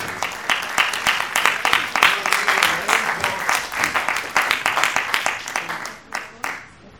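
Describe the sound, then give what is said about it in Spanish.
A crowd claps to welcome a guest at an anniversary celebration. Many sharp, distinct claps form a lively, uneven patter that thins and fades near the end. “Un fuerte aplauso para recibir a Yair.”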